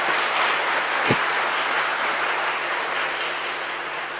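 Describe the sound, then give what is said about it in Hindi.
Audience clapping at a devotional gathering with children, heard as a steady, dense wash of hands that stays fairly loud and even throughout, with no single claps standing out. “अच्छा सब अपने लिए ताली तो बजाओ और जोर से बजाओ ना बाबा को थैंक्स।”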